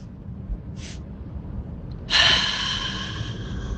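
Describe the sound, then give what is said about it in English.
Deep breathing from a breath work exercise done through the mouth: a faint, short intake of air, then a strong, audible breath out that tails off gradually. No talk. “taking one slow, deep breath in through the nose, and then when you're at capacity, when your lungs feel full, you take another short,”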